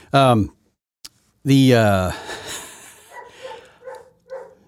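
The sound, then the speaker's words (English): Two dogs barking at home: a couple of loud, tonal barks, then a run of quicker, fainter barks and yips. “And yeah, you can hear him barking back there. See? Oh, now both of them are barking.”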